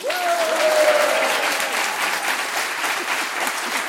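A game-show audience in a small medieval town in Champagne applauds the day's contestants, a dense, steady clapping that stays fairly loud and even throughout.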